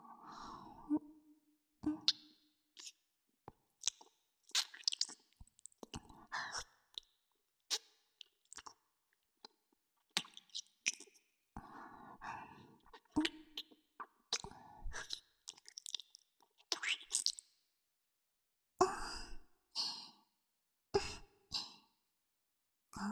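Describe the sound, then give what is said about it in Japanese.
Wet mouth clicks, lip smacks and breathy exhales close to the ear, in many short irregular bursts separated by brief silences, with no speech. “吐息と唾液が混ざり合ってとても気持ちいいでしょ。”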